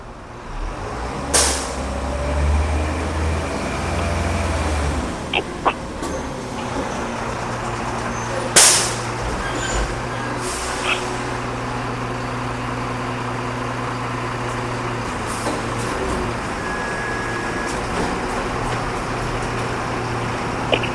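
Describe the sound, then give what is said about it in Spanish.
Garbage truck in a field recording: a steady low engine rumble runs throughout, broken by a few sharp clanks and one brief burst of air-brake hiss, with no voices. “escuchar la grabación número 22 del camión de la basura, efectuada, si tengo bien el dato, en julio de este año”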